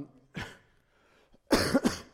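Coughing during a church communion service: one short cough, then a louder cluster of several quick coughs a second later, with no talk over them.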